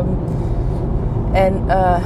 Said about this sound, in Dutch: wat is dat voor geruis op de achtergrond? Alleen, dat is omdat ik in de auto zit en dan heb ik een microfoontje op.